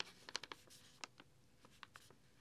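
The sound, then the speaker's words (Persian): A pen scratches on paper as an address is written on a letter, giving a quiet run of short, scratchy strokes that crowd together early and then come more sparsely. “ما یه گیرنده مینویسیم مثلا تهران”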